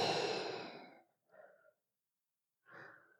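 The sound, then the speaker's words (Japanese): Breathing out during a guided breathing exercise: one long, loud, breathy exhalation lasting about a second, followed by two softer, shorter breaths. “で、吐いて、”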